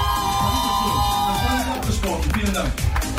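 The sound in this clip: A festival crowd at Parookaville 2022 cheers and applauds, with whoops and scattered clapping rising into a busy, noisy swell mixed with voices talking over it.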